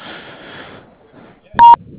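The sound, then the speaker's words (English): A single short voicemail beep tone sounds after quiet line hiss. It is loud, steady in pitch and clear. “Please leave a message after the tone.”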